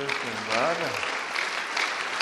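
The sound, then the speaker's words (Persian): An audience claps for a guest at a coaching session, a steady wash of applause, with a brief voice sounding over it near the start. “ایشون از مهمانان امروزن و تشویقشون کنیم.”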